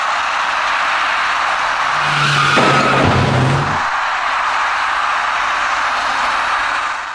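An engineering truck braking before striking an electric bicycle at an intersection: a steady traffic roar swells into a short, harsh burst of braking noise midway, then settles back to the even rumble.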